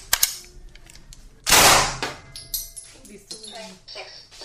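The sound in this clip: A gunshot fired during a body armour test at a 30 by 30 cm piece of protective clothing from 6 metres: a couple of sharp clicks, then one loud blast with a decaying rush of noise.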